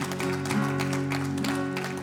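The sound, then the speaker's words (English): An audience applauding during a church service: steady, dense clapping continues throughout over sustained musical tones underneath. “And as you're, yeah, it's all right to applaud that. It's all right to applaud that.”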